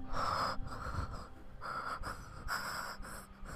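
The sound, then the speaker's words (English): A voice imitates a movie killer's heavy breathing with a few harsh, wheezy, panting breaths that rise and fall in separate bursts, separated by short quieter gaps, fairly soft throughout. “the killer, who sounds like he's heavy breathing”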